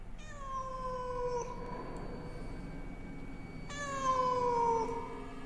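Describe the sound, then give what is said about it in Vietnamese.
A cat meows twice, out by a river at night: two long, drawn-out, harmonically rich cries separated by a pause, each heard over a constant low rumbling background noise. “ấy thế mà tiếng con mèo lại vang lên từ ngoài sông thật.”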